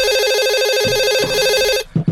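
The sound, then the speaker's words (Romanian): A home telephone rings late at night with a loud, steady electronic warbling trill. The ring lasts nearly two seconds and cuts off, followed by a couple of short thumps. “Cine sună la ora asta? Probabil că e ceva urgent dacă nu sună la ora asta.”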